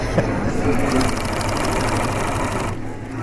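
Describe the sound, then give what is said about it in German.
A sewing machine stitches a giant picnic blanket in a busy exhibition hall. Its rapid, even whirr and clatter run loud and unbroken, with the high chatter easing slightly near the end. “Nähen sei nämlich gar nicht so schwierig, hat heute der einzige Mann in der Olmahalle gemeint. Und Nähen selber ist wie Autofahren. Ich kann hier Gas geben und Retto fahren und so weiter.”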